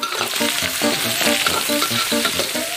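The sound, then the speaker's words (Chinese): Sliced smoked cured pork fries in a pan, stir-fried until fragrant, with a loud, steady sizzle full of crackles and popping throughout. “烟熏腊肉切片煸香，加入红辣椒，”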